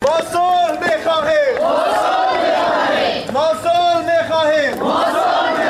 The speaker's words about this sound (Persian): گزارش مجیب حبیب زئی از مزار شریف با صدای مظاهره چان آغاز می شود.